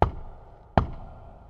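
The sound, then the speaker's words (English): Two knocks on the door of a queen's room, spaced well apart, each a sharp, solid hit followed by a short hollow ring, with nothing else heard between them. “He knocked on the door”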